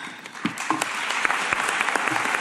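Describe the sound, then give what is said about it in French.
Subdued applause at the COP26 climate conference closing plenary in Glasgow, with many scattered, uneven claps forming a thin, moderately loud patter that continues throughout. “Applaudissements nettement moins nourris”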